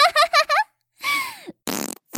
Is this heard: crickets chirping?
no